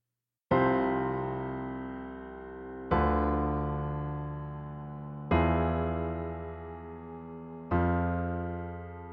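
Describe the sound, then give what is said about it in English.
A musical theme built from a series of chords, with four slow chords struck at an even pace, each ringing out and fading before the next, played alone at a soft level. “And it's really just a series of chords. The bass line climbs up while a little melody plays over the top and descends.”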